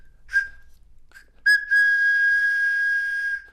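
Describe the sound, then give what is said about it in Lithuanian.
Whistle of a toy hammer blown through its handle: a couple of short toots, then a long, loud, steady shrill whistle lasting about two seconds before stopping. “Plaktuką, kurio stuktelėjus pasigirsta bjaurus cyptelėjimas. O pučiant į kotą galima švilpti.”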